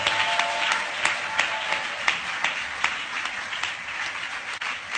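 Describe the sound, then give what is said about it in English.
An audience claps steadily at a religious convention, a dense, continuous wash of hand claps with a few sharper individual claps standing out at an uneven pace, fairly soft and without talk. “clapping, clapping? Come on. We are not through yet. Clap your hands.”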